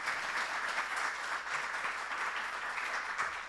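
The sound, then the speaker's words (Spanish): Audience applause fills the whole stretch at a testimony event, a steady dense wash of many hands clapping with no pauses and no talk over it. “Sí, le podemos aplaudir, claro.”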